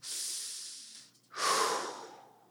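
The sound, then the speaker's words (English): One big, deep breath drawn in through the airways: a loud, airy hiss that swells and fades, following a quieter breathy sound and a short pause. “I want you to take one big breath first, just to kind of”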